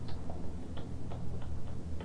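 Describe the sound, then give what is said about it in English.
A clock ticks with a few faint, sharp ticks at uneven spacing over a steady low hiss and rumble. “There's the clock.”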